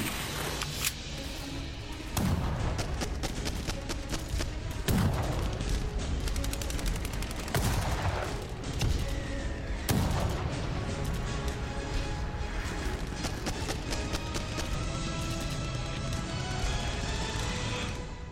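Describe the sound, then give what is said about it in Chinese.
Sniper gunfire during a hostage rescue drill: many sharp shots and heavier blasts over a dense, continuous rumble, loud throughout, with no voices. “狙击手射击， 报告队长，他们挟持了人质。 狙击手射击， 我 射击， 收到。”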